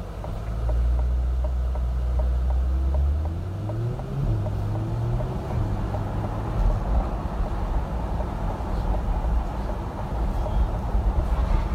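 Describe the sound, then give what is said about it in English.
A car drives slowly along a wet city street beside Puget Sound in the rain, its low engine hum stepping up in pitch through a few gear changes over a steady wash of road noise. “So let's quickly take a little quick ride. Not fast or anything because we're on a city street and it's raining”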